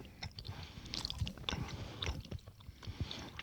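Chewing of a soft, gum-like sweet while tasting it: faint, wet, irregular mastication with many small clicks and squishes, heard alone without talk.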